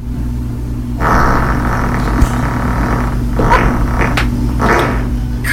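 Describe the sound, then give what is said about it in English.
A woman's loud, long fart plays from a recording, a sustained rough rumble that sets in after a brief quiet start and runs steadily to the end, with a few brighter bursts along the way. “this man's wife passed gas so impressively, he had to ask for a fist bump afterwards. It was so amazing. So it went a little something like this.”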